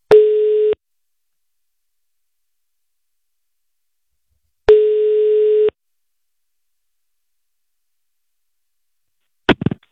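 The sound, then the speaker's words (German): A telephone ringback tone as a call is placed: two steady buzzing rings about four seconds apart with silence between them, followed by a brief crackle at the very end. “Na dann lass mal, auf den Knopf. Lass mal anrufen hier.”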